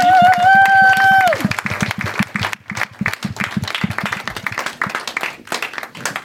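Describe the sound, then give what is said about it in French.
An audience gives loud, sustained applause for a poet at a poetry reading, many hands clapping densely and unevenly before the sound thins slightly. “Johan, on l'applaudit bien fort.”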